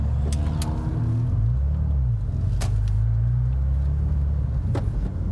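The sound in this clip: Car driving on a road, heard from inside the cabin while moving: a steady, loud low rumble of engine and tyres runs throughout, with a few faint clicks and no talking.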